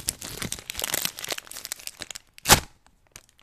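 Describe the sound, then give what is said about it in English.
Foil packs of 2011 Upper Deck MLS trading cards crinkle and rustle as they are torn open. The busy crackling runs for a couple of seconds, then one louder, sharper rip follows with a few faint rustles after it. “A box of 2011 Upper Deck MLS trading cards. We're opening a pack every week. Let's get this week's packs open.”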